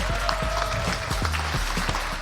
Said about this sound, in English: please give a big round of applause for TIC80 Byte Jam.